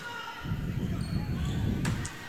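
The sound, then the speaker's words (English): A volleyball serve in a match between Lake of the Woods and Perham flies out and hits the bleachers with one brief sharp bang, heard over steady crowd noise and talk. “That serve, whoa, out. Hit the bleachers. A couple fans ducking out of the way.”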